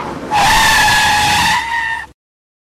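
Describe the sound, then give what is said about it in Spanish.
A minibus brakes suddenly, producing a loud, sustained tire squeal with steady high-pitched tones. It lasts under two seconds with no other sound, weakens slightly near the end, then cuts off abruptly into silence. “En ese momento la buseta frenó repentinamente.”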